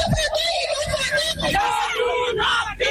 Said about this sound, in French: Hier, des manifestantes ont donc crié leur colère à Dakar.